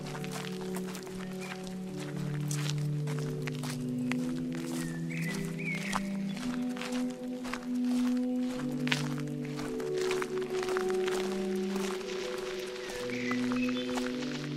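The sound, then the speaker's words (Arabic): A shepherd's footsteps walking on a journey give steady, regular soft thuds that carry on throughout beneath a continuous tonal music bed. “يمشي ويرتاح يمشي ويرتاح يمشي ويرتاح”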